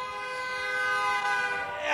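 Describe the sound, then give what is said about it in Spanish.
A vehicle horn honks in one long, steady blast: a sustained, bright tone held for the whole moment, swelling slightly at the end, with no voices. “Así debe de sonar el claxon vitalero.”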